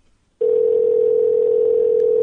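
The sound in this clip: Telephone dial tone after a call is hung up: one steady, loud, unbroken tone that starts abruptly after a short silence and holds unchanged to the end.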